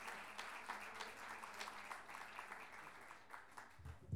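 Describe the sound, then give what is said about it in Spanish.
An audience applauds an improvising verse performer on stage at a championship, with a steady wash of many hands clapping at a fairly low, even level. “Luciano ahí en el escenario, recibe el aplauso cariñoso del público.”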